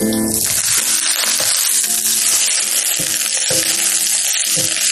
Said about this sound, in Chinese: 放入姜片，放入几个葱白，随后倒入腌制过的丝瓜块，